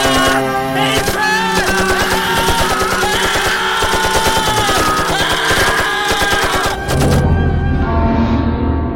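Gunfire in a German radio drama: loud, sustained bursts of rapid automatic shots crackling densely for several seconds, giving way to a heavy low rumble near the end.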